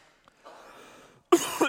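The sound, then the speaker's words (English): Someone coughing in an audience: a sudden loud, harsh burst with a second rough burst right after, following a short stretch of faint low background murmur. “It's contagious, whoever's coughing over there.”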